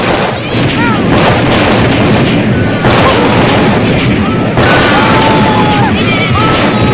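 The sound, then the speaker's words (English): A dense, nonstop barrage of gunfire from a group firing round after round at target practice, a loud continuous roar with no gaps between individual shots. “looks like we shot off about 2 million rounds or so.”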